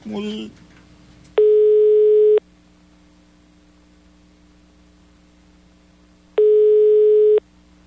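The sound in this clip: A telephone line rings during a call: two steady ringback tones, each about a second long, about five seconds apart over a low constant hum. A brief voice is heard at the very start.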